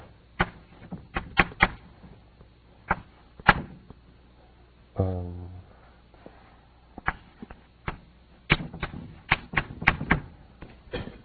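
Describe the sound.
Writing on a board during a physics lecture on fermion transformation rules: many sharp, irregular taps in loose clusters, with a brief scraping stroke midway and no speech.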